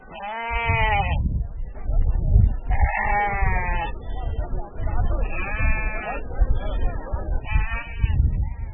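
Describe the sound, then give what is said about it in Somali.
Sheep and goats bleat at a busy livestock market in Hargeisa, where many animals wait for export. Several loud, wavering bleats rise above a steady crowd murmur, and a person talks throughout. “Waa sayladda iibka xoolaha ee magaalada Hargeysa waana ka dhaqdhaqaaqaya aragtida duwan tahay muddooyinkii la soo dhaafay. Waxaa buuxa xoolo tiro badan oo diyaara dhoof.”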